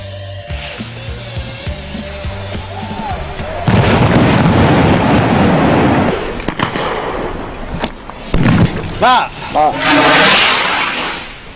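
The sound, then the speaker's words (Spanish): Rockets fired by miners toward Civil Guard police during a clash crackle and bang in a dense, loud barrage of sharp reports. A steadier background with voices comes before it. “escuchamos los cohetes de los mineros enviados de frente a la Guardia Civil”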